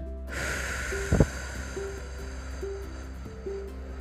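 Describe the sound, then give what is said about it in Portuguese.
A person releases a held breath after inhaling through the nose, giving a soft, sustained breathy hiss that runs through most of the moment. A brief sharper puff of air comes near the middle, and gentle musical tones play quietly underneath. “Puxar o ar pelo nariz em 3 segundos. Comigo, vai. Segura esse ar. Solta.”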